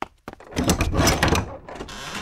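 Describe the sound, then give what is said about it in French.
A door of a big house opens: a sharp click, then a second knock-like hit, followed by a broad, rushing scrape that swells for over a second before fading. “Armand courut ouvrir la porte de sa grande maison.”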